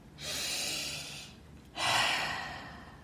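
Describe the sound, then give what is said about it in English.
A slow, deep breath is drawn and let out as two long, airy rushes of air separated by a short pause, the second one stronger and fading gradually. “Let's pause and take a deep breath.”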